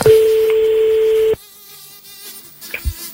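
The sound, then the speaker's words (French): A steady single telephone tone sounds for just over a second as a call is placed to a radio listener. It cuts off abruptly into near silence with a few faint clicks. “On y va, on l'appelle.”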